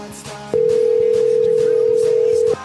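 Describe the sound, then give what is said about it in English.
Telephone ringback tone heard while calling a phone: a single steady, mid-pitched tone lasting about two seconds, alone and unbroken, starting and stopping abruptly. “Calling his phone now.”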